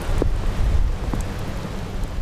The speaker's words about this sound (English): It's a raining sideways wind howling day in Portage as I approach the Anton Anderson Tunnel